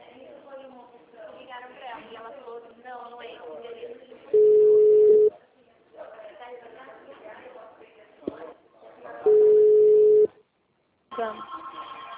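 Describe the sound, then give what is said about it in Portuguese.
Ringback tone while placing a phone call: two steady, mid-pitched beeps of about one second each, several seconds apart, with talking in between. “Tô ligando pra Marta.”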